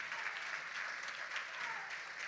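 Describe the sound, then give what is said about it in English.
A church audience claps steadily during a praise break, a dense, continuous wash of many hands at moderate volume with no break. “Let's take a praise break. I got to take a praise. Give the Lord a hand clap.”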